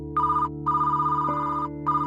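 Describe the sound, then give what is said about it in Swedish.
A telephone rings in repeated bright, buzzy bursts, a few in a row with short gaps between them. A steady low tonal drone continues underneath the whole time. “Nicole Kidman fått se resultatet ringer telefonen”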